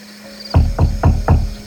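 Knocking on a door: four sharp, evenly spaced knocks in quick succession, loud and heard on their own.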